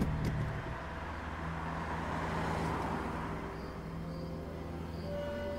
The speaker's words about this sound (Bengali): এরপর ও গাড়ি স্টার্ট করে এগিয়ে যায় অফিসের পথে